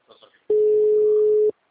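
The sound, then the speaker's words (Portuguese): An unanswered telephone call gives a single long, steady ringing tone lasting about a second, after a brief stretch of faint voices. “Não, tá chamando, mas não tá atendendo.”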